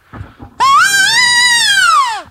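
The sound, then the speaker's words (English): A hunting call imitates a wounded calf's distress bleat, meant to draw in does and bucks. It gives one long, loud, nasal cry that holds steady and sags in pitch at the end, after a few faint sounds. “And then here's a wounded calf.”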